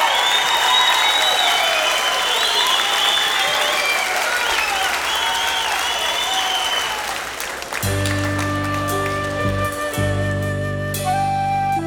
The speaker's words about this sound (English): An essential element of recording a live album is the audience. And you guys were just amazing tonight.